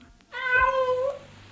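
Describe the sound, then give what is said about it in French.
A single cat meows once, a clear, drawn-out mid-pitched call lasting under a second, heard alone without talk. “Voilà votre chat, madame.”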